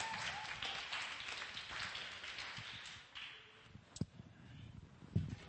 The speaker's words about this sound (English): Give him a hand.